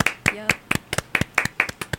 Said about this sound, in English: This is a really long applause. I'm really impressed.